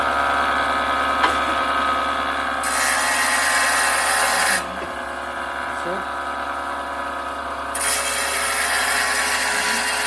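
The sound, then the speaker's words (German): Water-cooled saw cutting through a rock sample: a continuous, loud grinding rasp with a broad hiss that holds steady, then shifts in intensity across several long stretches as the blade works the stone. “Wird auch mit Wasser gekühlt. Und dann schaltet man die Säge an. Und da wäre aber jetzt schon die Probe oben. Da ist jetzt die Probe oben. Ja. Ja. Und das hört sich dann ungefähr so an.”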